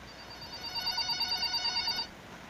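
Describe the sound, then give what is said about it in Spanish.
A telephone rings for an incoming call: a fast, bright electronic trill lasting about a second and a half, then it stops. “Ah, no, tenemos otra llamadita.”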